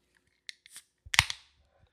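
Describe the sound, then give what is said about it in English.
Sharp cracks and snapping clicks from chopping at a wax seal: a few brief hits, then a denser cluster of crackling snaps, with no voices. “I'm still chopping at this wax.”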